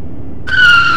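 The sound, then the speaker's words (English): A car drives off down the road: a low rumble, then a sudden loud, steady high whine like tyre squeal or a revving engine that carries through to the end, with no voices. “Oh no! My car is going down the road! Stop! Stop! Stop! Stop!”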